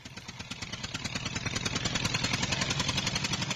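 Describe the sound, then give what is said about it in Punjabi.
A tractor engine arriving: a rapid, evenly pulsing diesel chug that grows gradually louder over a few seconds, with no voices. “ਆ ਗਿਆ tractor.”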